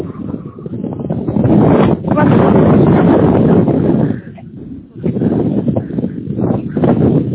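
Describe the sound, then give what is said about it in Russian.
Wind buffets a phone microphone as the caller walks, making a loud, continuous rumbling roar that dips briefly around the middle before surging back, with no clear speech. “А это вы просто идете, ветер дует, вы меня не слышите.”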